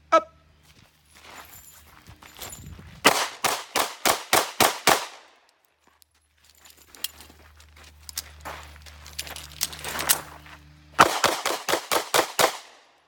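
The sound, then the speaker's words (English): A handgun fires two rapid strings of many loud, sharp shots, separated by a quieter stretch with softer scattered sounds. “Wow. For a gun named after a dancer, it shoots pretty true.”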